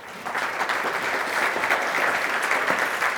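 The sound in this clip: Audience applause at a law school talk, welcoming a speaker to the stage: steady, dense clapping that holds at an even level for about three seconds with no voices over it.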